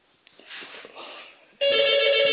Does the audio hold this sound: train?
no